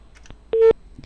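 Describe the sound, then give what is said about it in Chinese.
One short keypad beep as a phone number is dialed on a handset whose 4 key is broken, a steady mid-pitched tone standing alone against near silence. “自打4号键坏了，我拨打电话的这个时长啊，明显增加了。”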